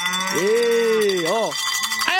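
A bell rings to wake people on a farm at milking time, giving a bright, sustained ringing throughout while a lower, wavering tone bends up and down beneath it.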